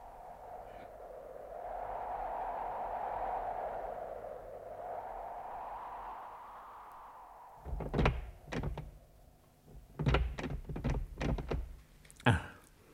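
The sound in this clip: Heavy thuds and rattles as someone tries a locked temple door. After a long stretch of steady low ambience they come in a loud, irregular cluster of sharp knocks and jolts.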